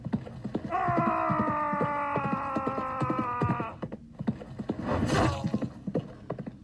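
Galloping hoofbeats of a horse in the knight-management video game Rittermanager, a rapid, regular clip-clop with a long whinny-like tone over the first half and a brief burst near the end.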